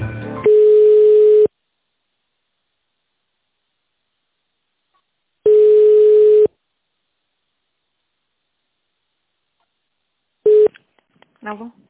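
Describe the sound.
Telephone ringback tone while an office call is being transferred: two steady, mid-pitched one-second beeps about five seconds apart, then a third beep cut short, with faint sound after it.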